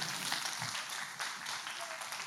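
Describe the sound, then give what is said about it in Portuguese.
Faint applause from a church audience thanking the actors, a soft, continuous patter of many hands clapping with no clear breaks. “muito obrigado aos atores aí, vamos dar uma salva de palmas”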